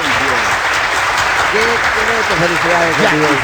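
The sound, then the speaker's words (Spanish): Dense applause fills the whole stretch as a steady, loud wash of clapping, with a voice talking over it throughout. “aplauso para Gondi”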